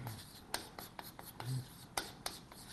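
Faint, scratchy strokes of handwriting as a lecturer writes out a formula, with several short, sharp scrapes at an uneven rhythm over a quiet background.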